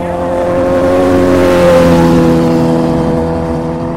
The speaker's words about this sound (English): he's actually picking up his wheelie quite a bit before he even gets to that first line.